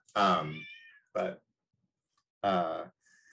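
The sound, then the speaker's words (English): A domestic cat meows three times, with the second meow short and clipped, in a quiet setting with pauses between the calls. “If you heard, that was my cat, Lewis.”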